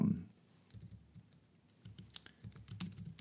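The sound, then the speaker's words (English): Computer keyboard typing, faint irregular clicks and taps in uneven bursts over a low background hum. “you're going to hear me typing as I pull this up and prepare it.”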